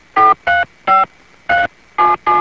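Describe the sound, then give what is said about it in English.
Touch-tone telephone dialing: six short, steady DTMF beeps separated by brief gaps as someone calls a radio program director. “Live. Calling the program director. Oh, thank you for answering.”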